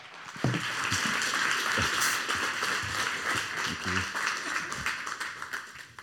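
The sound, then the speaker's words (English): Faint hand clapping from an audience welcoming a speaker at a summit, a soft continuous patter lasting several seconds with a few sharper claps standing out. “So please put your hands together and join me in welcoming Dr. Vince Bacote.”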